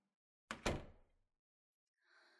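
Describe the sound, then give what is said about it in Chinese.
A door being shut: two quick heavy thuds in close succession, followed by a short fading rumble and then near silence. “站在门口干嘛？把门关上。”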